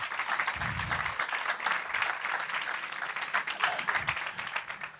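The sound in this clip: Audience applause welcoming a speaker to the front: a dense, steady wash of many hands clapping that holds at an even level for the whole stretch, with no voices standing out.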